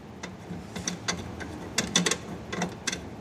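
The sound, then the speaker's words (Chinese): Crisp clicking and ratcheting as the mounting bracket of a window-mounted air conditioner is tightened. Many irregular, sharp metallic clicks come in small bursts over a low background hum. “往窗户上一扣， 卡这里是吗？ 对，是的。往上一扣，然后稍微拧紧就 OK 了。 加固一下。”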